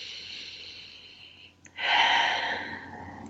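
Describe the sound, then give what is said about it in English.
A deep breath in and out during a guided meditation: a faint, airy inhale gives way to one loud, breathy exhale that swells and then slowly fades, with no talking. “And one more breath in, just releasing any distractions on the exhale, any thoughts or worries, to-dos.”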